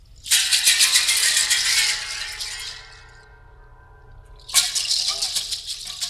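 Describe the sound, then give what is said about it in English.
Llama hooves are dropped and rattled, close up, onto an upside-down steel drum and a waterphone. Two loud bursts of dense, clattering rattling are separated by a lingering metallic ring that fades between them. “Evelyn Glennie dropping and rattling llama hooves onto an upside-down steel drum and onto a waterphone”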